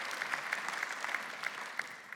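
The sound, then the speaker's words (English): A room of people at a talk about forgiveness gives a faint, steady round of applause. Individual claps stand out now and then from the even patter. “Can you guys give these guys a round of applause?”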